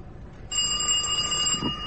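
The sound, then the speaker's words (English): A doorbell rings: a bright, steady metallic tone starts abruptly half a second in and sustains evenly to the end, loud and alone. “When we arrived at Bloomsbury Square, Hadley rang the doorbell.”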